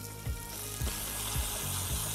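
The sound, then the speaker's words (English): Pork searing skin side down in a hot pan gives a steady, bright sizzle and crackle, broken by four soft low thumps at even intervals. “Get your pork skin side down.”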